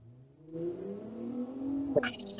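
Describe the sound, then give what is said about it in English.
A car accelerating and driving away, its engine hum climbing steadily in pitch over about two seconds, then a short sharp burst at the end. “driving away”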